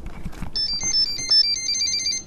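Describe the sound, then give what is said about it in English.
A humanitarian cargo drone's autopilot switches on with a quick string of high, warbling electronic beeps lasting about two seconds over a low background hum, with no talking. “So that's the sound of our autopilot turning on.”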